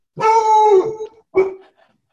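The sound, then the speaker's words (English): A pet dog howls: one long, wavering tonal howl lasting about a second, then a shorter second howl, fairly loud and alone with no talk. “Okay, that was bound to happen. That's my dog Yuli. He's here with us too.”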